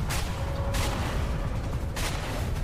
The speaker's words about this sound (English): Okay, where are they shooting at me?